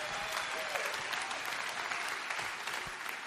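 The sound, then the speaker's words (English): An audience applauds a guest preacher's wife at a church service. Many hands clap in a dense, steady wash of applause that stays fairly even throughout, with a faint murmur of the crowd beneath. “you're really applauding her a lot more than you're applauding me.”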